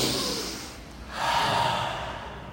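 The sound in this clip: An audience draws a deep breath together, a soft, broad rush of air that dips briefly, then swells and slowly fades, with no talking.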